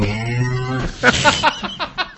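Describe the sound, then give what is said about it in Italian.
A person's voice imitating a cow mooing: one low, drawn-out lowing note lasting nearly a second, followed by a few short, choppy vocal bursts. “Ma chi è che ha muggito? Che cazzo è stato?”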